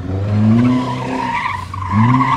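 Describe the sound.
A 1970s-style Mark II car skids hard around a corner near a barrier, its tyres squealing in loud, sustained tonal screeches, with a second squeal rising again near the end over engine noise.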